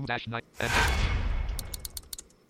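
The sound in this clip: AK-47 gunfire in the game RTR: after a brief voice, a loud burst of fire erupts and decays, followed by a quick run of sharp, crackling shots.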